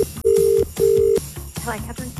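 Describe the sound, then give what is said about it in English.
Phone tones as a call goes out to a Gold Club member: two sustained, steady electronic tones of the same pitch, each lasting under half a second, with a voice talking briefly between and after them. “this is the last call that I'm making to a Gold Club member. So make sure you do answer your phone.”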